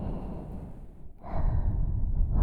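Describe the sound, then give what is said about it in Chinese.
A deep breath drawn in: a slow, breathy rush of air that dips briefly, then swells louder as the long inhale continues, heard alone with no talk. “深呼吸，吸气，”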